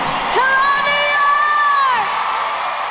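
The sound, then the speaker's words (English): A crowd cheers at Yankee Stadium. One long, loud whoop holds a steady pitch for over a second above a constant wash of crowd noise. “Welcome to Yankee Stadium.”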